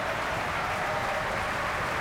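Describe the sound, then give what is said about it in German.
Opera audience in the Festspielhaus applauding a singer after a Rienzi performance: a dense, unbroken wash of many hands clapping, steady and even throughout. “Er bekommt großen Applaus hier im Festspielhaus.”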